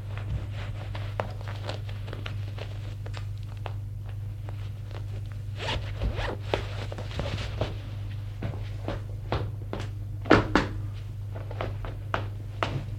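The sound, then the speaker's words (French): Faint zipper and clothing rustles as a man gets dressed after jumping out of bed, with scattered clicks and light knocks over a steady low hum, one sharper thud standing out near the end. “Il se lève d'un bond, s'habille.”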